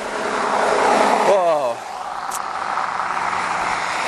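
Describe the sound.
A four-wheel drive vehicle driving off-road and churning up the ground, its steady engine drone dropping in pitch midway and then continuing more quietly.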